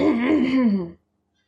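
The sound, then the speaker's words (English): A man clears his throat once, a short voiced rumble lasting about a second before silence. “clears his throat”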